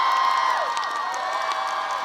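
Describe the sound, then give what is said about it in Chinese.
An audience at a stage event cheers and whoops: a steady crowd roar with high shouts rising above it, continuous and loud throughout. “来，掌声给斯隆。”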